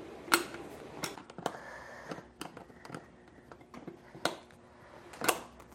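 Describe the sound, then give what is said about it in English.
A Phillips screwdriver works a rear seat bolt loose, giving a few sharp, faint clicks and scrapes spaced irregularly over several quiet seconds. “The rear seat bolt is back here. It takes a Phillips or a socket. I'm going to use a Phillips here and get this off.”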